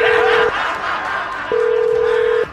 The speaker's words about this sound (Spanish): pero vamos, estamos marcando.